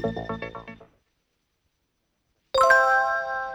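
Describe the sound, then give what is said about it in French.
A bright chime-like cue tone on an instructional cassette rings out and sustains with a clear pitch. It is preceded by a few quick, quieter musical notes and then a stretch of silence. “appuyez sur la touche « Pause » de votre lecteur de cassette lorsque vous entendrez le signal sonore.”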